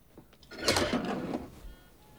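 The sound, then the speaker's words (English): A peephole on a door slides open in one brief scraping, rasping slide of about a second that swells and then fades into quiet. “A peephole on a door slides open.”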